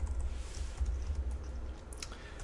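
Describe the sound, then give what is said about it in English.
Typing on a computer keyboard: a few quick, faint key clicks over a steady low hum, with no voices. “what I want to do is just type console.writeLine,”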